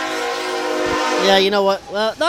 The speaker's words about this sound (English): We got a little train coming through, so kind of bear with us here if it's not too loud.